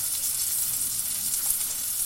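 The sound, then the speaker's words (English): Food sears in a hot pan with a steady, loud sizzle and crackling hiss that holds evenly throughout, with no voices. “I'm just going to pop these in. You literally just want to seal them on either side, maybe a minute on either side.”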